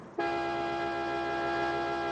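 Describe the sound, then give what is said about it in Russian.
A Volga car's anti-theft alarm blares, a loud steady honking tone that starts abruptly and holds without pause. “Деточкин пытается завести «Волгу», но она отчаянно воет, собирая зевак.”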